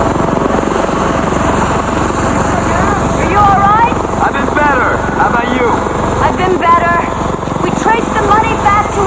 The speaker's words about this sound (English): DeVoe climbs out of the chopper and strides toward her.